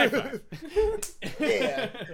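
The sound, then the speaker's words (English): A single crisp hand slap of a high five lands between people talking, one short, sharp smack among the voices. “High five.”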